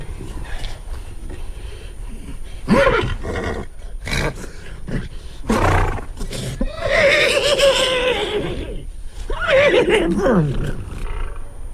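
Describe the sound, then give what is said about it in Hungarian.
A human voice imitates a horse neighing as it does when wanting to walk: a series of loud, whinny-like cries that rise and fall in pitch, separated by breathy bursts. “Ez egy szomjas ló nyerítése. Megmutassam, milyen, ha sétálni akar?”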